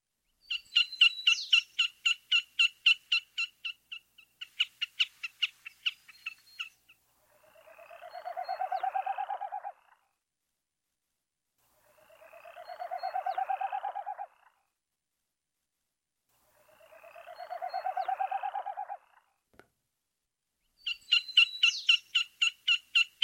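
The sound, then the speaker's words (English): A Wilson's snipe calls with a run of rapid, repeated chattering notes, then three separate rising, pulsing whooshes, each lasting a couple of seconds, before the quick chattering resumes at the end. “Wilson's snipe.”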